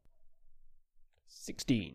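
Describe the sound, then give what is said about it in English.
A die rolled across a surface, a quick run of faint clicks and rattles, followed by a voice speaking. “Someone else roll the die, please. Be careful.”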